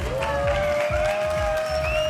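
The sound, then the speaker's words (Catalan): Audience applause at a live show, a dense, steady clatter of many hands filling the whole two seconds, with a sustained musical tone running underneath. “Un aplaudiment per l'Àngela, sisplau.”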